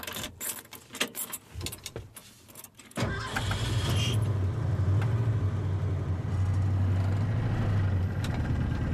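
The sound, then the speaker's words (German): An old 1974 pickup truck starts up. Uneven clattering and rattling come first, then the engine catches at about three seconds and settles into a steady, loud, low idle rumble. “Und zwischendrin steige ich in meinen alten 74er Pickup und reise damit durch meine zweite Heimat.”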